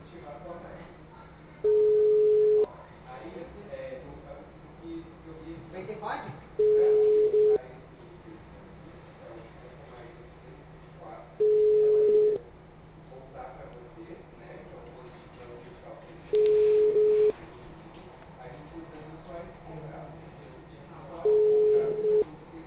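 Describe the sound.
Ringback tone of a telephone call going unanswered: five steady mid-pitched beeps, each about a second long, repeat at even intervals of roughly five seconds, with faint low background noise between them.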